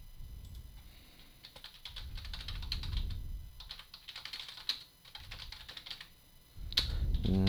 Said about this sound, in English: just once, I'd like to be able to type the word Spanish without my fingers messing it up and having to go back and fix it.